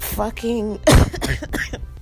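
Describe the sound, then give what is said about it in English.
A single abrupt cough bursts out between stretches of speech, short and fairly loud, with people talking just before and after it. “talking about this shit making me cough”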